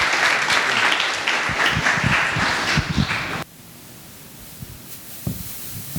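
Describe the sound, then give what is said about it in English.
An audience claps to welcome a guest preacher to the pulpit with loud, dense, steady applause that stops abruptly about halfway through, leaving near quiet broken by one faint thud. “If we could all welcome up Edwin Cologne as he comes on up here to preach for us. Give it up for Edwin.”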